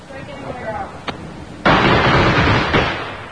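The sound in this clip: Firecrackers exploding after being lit: a sharp crack, then a loud, sudden burst that gives way to a sustained crackling roar, with a few more pops inside it.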